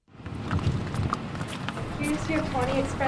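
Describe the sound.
Hooves of a chocolate brown mare clip-clopping as she is ridden to the front door of a computer software business. Hard, irregular clops run over steady broad background noise, with some talk toward the end.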